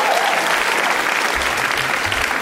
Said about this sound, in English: Can we please give one more hand to all our guests tonight?